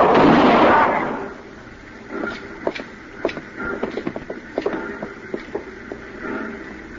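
A gunshot in a radio drama standoff: a loud booming blast at the start fades into a trailing rumble, followed by many sharp clicks and small pops.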